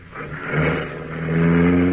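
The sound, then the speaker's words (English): Car engine accelerating away near a barn, its revving hum growing louder and climbing in pitch over two seconds with no voices. “Stop that car, you!”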